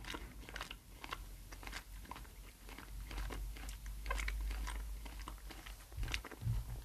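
Chewing a watermelon-flavoured jelly bean, heard as many soft, irregular crunches and mouth clicks in a steady run. It is fairly quiet, with no talk.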